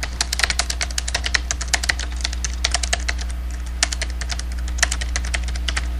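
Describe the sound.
Typing on a computer keyboard in a word processor: many quick, crisp key clicks in an uneven, steady stream over a constant low hum, with no one talking.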